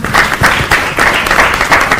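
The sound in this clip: Loud, sustained applause from an audience welcoming a woman onstage as a new member of a group called Chad, a dense, steady clapping that holds without a break for two seconds.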